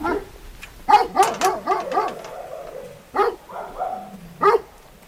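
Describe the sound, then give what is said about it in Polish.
Dog barking in sharp, high yips and barks: a quick irregular cluster of several barks, then two more separate barks after pauses, loud against a quiet background. “Dobry pies, dobry.”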